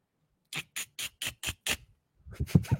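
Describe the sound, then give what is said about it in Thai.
Squirrel calls in the style of a squirrel from Ranong in southern Thailand: six sharp, evenly spaced squeaky chirps, then a pause and a quicker, louder cluster of chirps. “ร้องแบบนี้เพราะว่ามันเป็นกระรอกปากใต้นะครับ”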